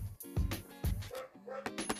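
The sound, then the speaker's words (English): A dog barks in the background, giving a few short, sharp barks at moderate loudness with quieter yips between them. “my fucking dog in the background is fucking barking. I'm so fucking sorry.”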